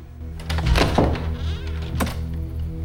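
A door is opened with a security chain attached, heard as a couple of dull thunks and a rattling knock over a steady low hum.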